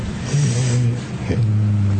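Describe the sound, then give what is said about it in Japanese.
A train passing: a low, steady rumbling hum with sustained droning tones that dip briefly around the middle and then resume at full strength. “あ、電車だ”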